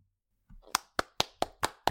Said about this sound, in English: We're not clapping for all 10. This is like this is like graduation. Oh, okay. Wait. No. You can clap for the t-shirt.